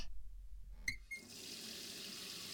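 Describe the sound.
Water poured to rinse something off: after a small click, a soft, steady splashing stream starts and runs evenly to the end.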